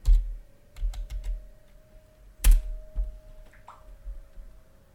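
Typing on a computer keyboard: irregular bursts of crisp key clicks, clustered in a few quick runs with gaps between, over a faint steady hum.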